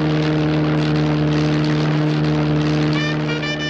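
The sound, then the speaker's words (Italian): A single-engine monoplane drones on a transatlantic flight, its engine giving a loud, steady, even hum rich in harmonics that runs without a break. “nella gelida cabina di pilotaggio dello Spirit of St. Louis, e questo è il nome del monoplano con il quale Charles Lindbergh sta tentando la traversata atlantica”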